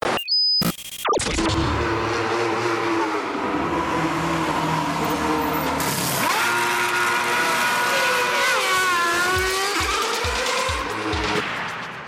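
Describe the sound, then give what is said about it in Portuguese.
A motorsport show's jingle plays between segments, dominated by loud, roaring and revving engine sounds with sweeping pitch changes that run continuously before fading near the end. “Vamos passando agora a nossa vinheta e vamos para a próxima categoria.”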